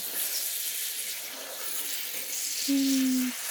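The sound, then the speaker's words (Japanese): Water runs in a soft, steady hiss while hair is rinsed during a hair wash, faint throughout, with a brief low hum near the end. “髪の生え際まで流して、軽く油を流しておかないといけませんからね。”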